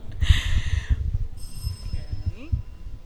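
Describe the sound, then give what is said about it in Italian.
A small bell rings to signal the end of a session: a bright, high ring lasting about a second near the start, with low voices murmuring underneath throughout. “La campanella vuol dire che è fine.”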